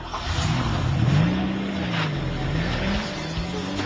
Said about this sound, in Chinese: 我一听声。就听到死气喉嗰种劲度，低沉得好有力啊！啲声唔散，唔会太尖，系咪换咗中喉咧？定系尾喉嘅声嚟嘅咧？